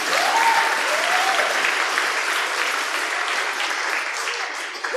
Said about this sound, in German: Kann ich mal einen Applaus haben?